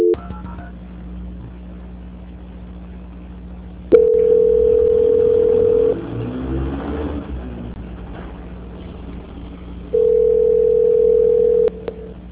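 Telephone call transfer tone on a line put on hold: a loud, steady single-pitched tone held for about two seconds, a stretch of quieter line noise, then the same tone again for nearly two seconds.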